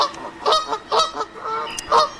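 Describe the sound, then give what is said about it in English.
A Canada goose honks in a quick series of harsh, nasal calls, several loud bursts in uneven rhythm with short gaps between them. “later found out it was a Canadian goose pretending to be a magpie goose.”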